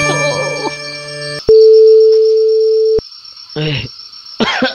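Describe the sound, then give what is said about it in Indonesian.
An outgoing phone call's ringing tone sounds as one loud, steady, mid-pitched beep lasting about a second and a half, with a man's talk before and after it. “Ini malah nelpon Bang Naim.”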